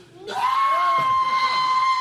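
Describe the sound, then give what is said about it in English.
A man's scream, imitated by a voice actor: one loud, sustained, high-pitched yell that bursts in after a brief quiet start and holds a fairly steady pitch to the end. “now I'm going to let him scream.”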